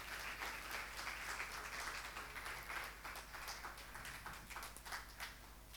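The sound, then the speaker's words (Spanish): An audience applauds to welcome a small girl at a ceremony where vows follow. Dense, faint clapping carries on steadily throughout. “Y la vamos a recibir con un aplauso a Humita.”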